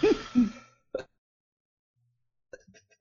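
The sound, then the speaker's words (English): A few harsh coughs and throat clearings come as short rough bursts, with a strong pair at the start and smaller fragments later, separated by silence. “God damn this cough”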